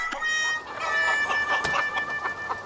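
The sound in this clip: Chicken clucking in a dense run of short, overlapping clucks and squawks, fairly loud, with no talk.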